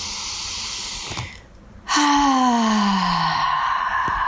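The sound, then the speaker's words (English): A deep breath is taken during a guided relaxation: a quiet pause, then a loud, breathy rush of air that trails into a long sigh with a gently falling voiced pitch. “Take a deep breath.”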